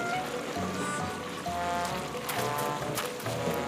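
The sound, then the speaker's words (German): A concrete mixer pours concrete at a building site where basement walls are being cast. It gives a steady engine drone with a continuous rushing, sloshing flow that holds a fairly even level throughout. “Nein, das ist doch ein Betonmischer. Guck mal da. Ganz schön laut hier. Kommt, wir schauen, wohin der Beton fließt.”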